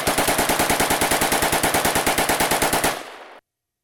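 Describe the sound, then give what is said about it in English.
Rapid automatic-sounding gunfire from a gun bump fired by hand with no device, held loosely and pushed into the trigger finger: a long, even string of many sharp shots over about three seconds, then a short fading tail and silence. “this is a guy firing, I said manually bump firing, like no device, just holding it loosely and pushing the gun into his finger with his left hand.”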